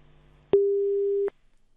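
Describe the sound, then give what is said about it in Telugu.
Busy tone after a phone call is cut off: a single clear, steady mid-pitched beep lasting under a second, heard alone. “Yes, call అయితే cut అయిపోయినట్టుంది.”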